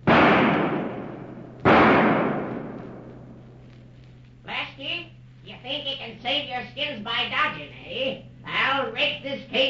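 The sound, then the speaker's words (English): Two loud gunshot effects in a radio drama, fired in a cave, each with a sharp crack and a fading tail, followed by people talking. “Just as the force of the eruption begins to slacken, Kipp comes upon our friends from the rear of the cave and starts shooting.”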